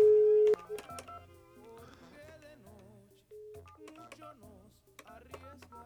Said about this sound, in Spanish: Entonces aguántame y le marco a mi querida Luz.